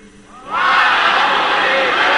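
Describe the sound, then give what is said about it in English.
An audience hollers back at a preacher, a sudden loud burst of collective shouting that erupts after a quieter start and holds strong to the end. “I want you to holler that at me again.”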